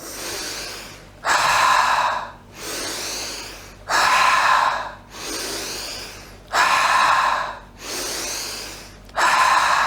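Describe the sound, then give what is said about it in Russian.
A person breathes rhythmically in through the nose and out through the mouth. A softer airy breath alternates with a louder rushing one, repeating about four times in an even, steady rhythm. “тоже вдох носом, выдох ртом.”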